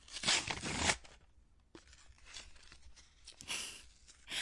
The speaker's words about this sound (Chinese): 喏，给你，你拆开看看。